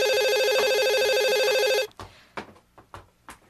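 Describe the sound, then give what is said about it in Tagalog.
A telephone bell rings in a steady, bright trill for just under two seconds, then cuts off, leaving a few faint clicks and knocks. “Ang aga naman ang tumatawag na to.”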